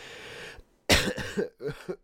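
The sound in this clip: A person recovering from influenza coughs. A soft breathy stretch and a short pause lead into a loud, harsh cough, followed by a few more rough, chesty coughs.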